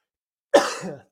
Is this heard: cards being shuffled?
no